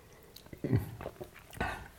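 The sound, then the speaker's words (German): Someone takes sips of wine, producing soft, wet mouth sounds in two short bursts with near-silence between them. “So, erstmal noch einen Schluck Wein hier.”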